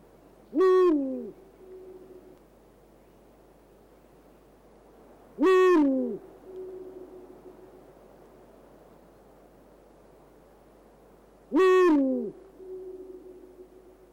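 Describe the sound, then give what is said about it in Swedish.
A Eurasian eagle-owl gives three deep hoots, each about five to six seconds apart, each with a sharp onset and a fainter trailing tone, over a quiet, steady background hiss. “Ska vi lyssna på berguven?”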